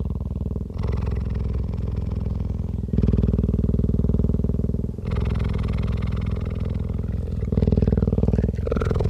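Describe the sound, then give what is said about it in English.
A sleeping cheetah purrs in a continuous low rumble that switches between breath phases every couple of seconds, with the pulsing texture steady and fairly loud throughout. “It's the sound of a cheetah sleeping.”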